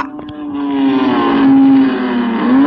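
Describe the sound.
A car speeding in a chase gives off a loud, sustained engine whine. Its pitch holds fairly steady, wavers slightly, then dips and climbs again near the end.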